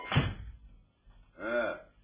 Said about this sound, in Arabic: اقفل الباب.